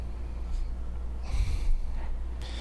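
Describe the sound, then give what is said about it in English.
A deep breath taken by someone pausing to think, a soft rushing inhale surrounded by a couple of fainter breath sounds, heard alone without speech. “I took a deep breath because I was thinking.”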